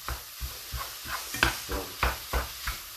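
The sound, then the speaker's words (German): Chopped ingredients fry with onions in a pan. Regular scraping strokes of stirring come at a steady rhythm over a soft, continuous sizzle. “Und dann kommt das Ganze gleich mit zu den Zwiebeln rein. Und kann da angebraten werden.”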